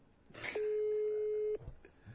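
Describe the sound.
A single ringback tone from a telephone call that goes unanswered: one steady, mid-pitched electronic tone lasting about a second, set against faint background noise.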